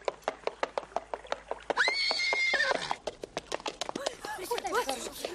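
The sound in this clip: Hooves of a horse ridden onto a river pier clip-clop in a steady, even beat, broken midway by a loud, drawn-out whinny. The hoofbeats then resume, and people talk toward the end.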